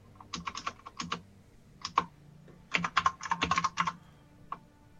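Fingers type on a computer keyboard in uneven bursts of quick clicks, with short pauses between groups of keystrokes, fairly quiet and alone.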